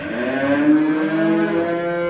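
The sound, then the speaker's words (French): A Charolais cow moos in one long, loud, low call with rich harmonics that holds steadily for about two seconds, with no voices. “C'est une vache qui est très représentative de la race. Dans sa tête déjà, elle a vraiment la tête typique des vaches charolaises.”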